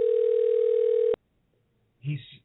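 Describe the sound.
A telephone dial tone sounds while a call is being placed: a loud, steady, single-pitched hum that holds for about a second and cuts off abruptly, followed by silence and then a brief burst of a different sound.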